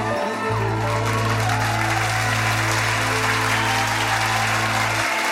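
Dense, continuous clapping from an audience applauding a performer runs unbroken from start to end, with a low steady hum beneath it.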